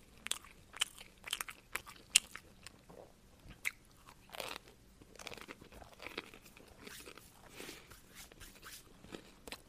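Crunchy chewing of pizza crust, with many irregular crisp bites and crackling crunches scattered over a quiet background, some sharper and louder than others.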